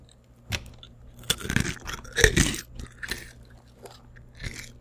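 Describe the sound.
Someone crunching and chewing food for ASMR: crisp bites and crackling crunches come in irregular bursts, with a few louder snaps in the middle and softer mastication between them.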